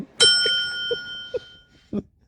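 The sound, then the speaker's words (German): A single bicycle bell strike rings out brightly and decays slowly, followed by a few soft knocks and taps. “Ich glaube, ich will jetzt so eine Glocke haben.”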